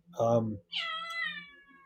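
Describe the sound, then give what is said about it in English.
A cat meows twice: a short first call, then a longer, drawn-out meow that slowly trails off, over a low steady hum. “my cat is out here.”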